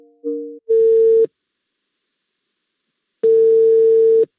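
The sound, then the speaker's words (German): Telephone ringback tone while a call is placed: a short wavering blip, then two long steady beeps at one middle pitch, separated by a silent gap of about two seconds. “Und darum habe ich, als ich daheim war, Christoph Ries nochmal angerufen.”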